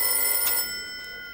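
A telephone rings for an incoming call with a bright, steady electronic tone, loud for about half a second before dropping to a quieter sustained ring that fades out.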